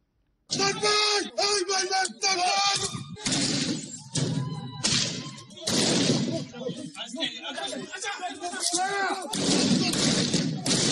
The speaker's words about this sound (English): Shots were fired as a police superintendent commanded officers to repel protesters storming the Vigilo police station on Wednesday.